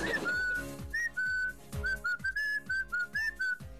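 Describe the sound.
An elderly woman whistles a tune in short, bright, high-pitched phrases. The notes come in quick bursts with brief gaps, clear and alone.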